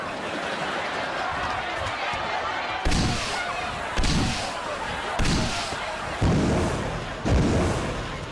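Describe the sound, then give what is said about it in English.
Flare shots from a handheld flare launcher: several sharp, booming bursts at fairly regular intervals, each cutting loudly through a steady, rushing noise bed. “You fired 3 flares, but only 2 went off.”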